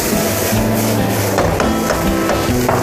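Spinach and bacon sizzle in a frying pan, with water added to soften the greens. A loud, steady frying hiss runs throughout, with a few faint clicks and pops on top.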